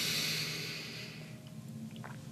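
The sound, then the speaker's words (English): A deep breath drawn in through the nose during a guided breathwork exercise: a soft, airy rush that is loudest at the start and gradually fades, heard alone and faint. “Inhale.”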